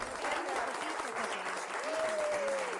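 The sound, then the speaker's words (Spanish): Steady applause from a crowd for a guest during a live show from a remote city, continuous and fairly even in loudness throughout, with a speaking voice over it. “Ya nos dijeron por aquí, aplausos.”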